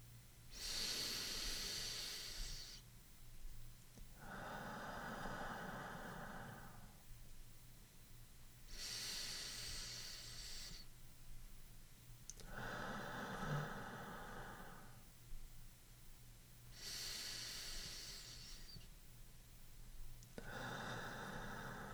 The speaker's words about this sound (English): let's breathe four times, maintaining the same pace and count. You can breathe along with me.